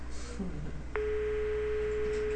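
Telephone ringback tone on a call to an extension that goes unanswered: after a soft click, one steady low electronic tone sounds and holds unbroken to the end, fairly faint.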